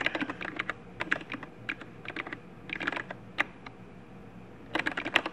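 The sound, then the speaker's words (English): Keystrokes on a computer keyboard as a host name is typed: quick bursts of crisp, clicky taps separated by brief pauses, fairly faint and with no voices. “helps if I type the host name right”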